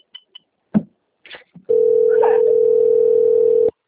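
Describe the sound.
Telephone tone heard while placing a call: a few short clicks and blips, then one steady, low-pitched continuous tone lasting about two seconds before it stops abruptly.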